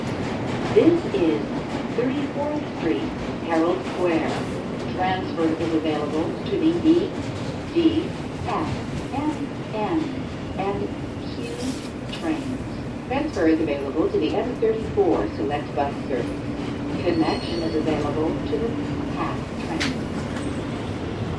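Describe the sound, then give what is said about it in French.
Rumbling clatter of a New York subway train on the N line, a steady loud roar that runs the whole way through with a voice talking over it. “États-Unis, métro, ligne N, New York.”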